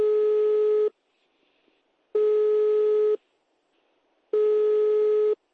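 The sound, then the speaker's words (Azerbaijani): Telephone busy signal heard when calling a number: three identical, steady mid-pitched beeps, each about a second long, separated by short silent gaps in an even on-off rhythm. “Mən də Bakıya qayıdandan sonra həmin nömrəyə zəng vururam. Ancaq hələ ki, həmin nömrədən mənə də cavab verən yoxdur.”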